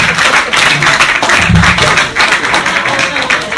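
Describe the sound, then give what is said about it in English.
Audience clapping at a stand-up comedy show, a loud, dense wash of applause that swells and eases in uneven waves. “I am like 90% sure everyone clapping at that were millennials.”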